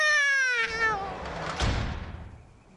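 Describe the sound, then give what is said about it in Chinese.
A cat meows once in a long, drawn-out call that falls in pitch, followed by a brief noisy burst that fades away. “放翻你只猫出嚟啦”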